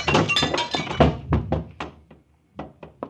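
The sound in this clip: A vase strikes someone on the head with a heavy thunk, followed by a scatter of smaller knocks and clinks that thin out into a few last sharp taps after a short gap.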